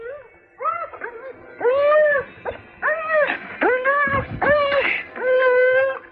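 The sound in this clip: A frightened dog whimpers in a string of drawn-out, tonal whining cries that bend up and down in pitch, some blending into one another, loud and with no speech over them.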